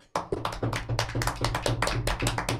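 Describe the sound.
Rapid hand clapping celebrating a win: many quick, sharp claps fall in a fast, steady stream, fairly even in loudness from start to finish, with no voices over them.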